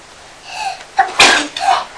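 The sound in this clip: One loud, sharp sneeze bursts out, with brief, softer vocal sounds just before and after it.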